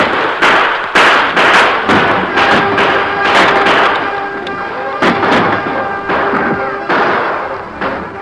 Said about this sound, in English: The crooks began firing at the wagon guards.